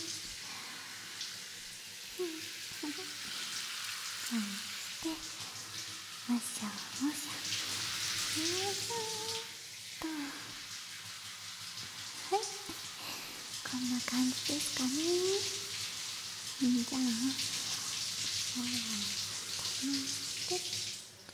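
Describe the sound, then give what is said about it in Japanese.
Warm water rinsing through hair during a hair wash, a soft continuous hiss of flowing water that swells and eases, with a quiet voice speaking at intervals over it. “髪の毛を軽くもみほぐしながら、頭皮の方までしっかりとお湯を行き渡らせていきますね。”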